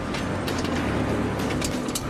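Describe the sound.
A chain hoist lowers a car's rear axle assembly, fitted with a self-locking differential, producing a continuous low mechanical whir and rumble with faint clicking throughout.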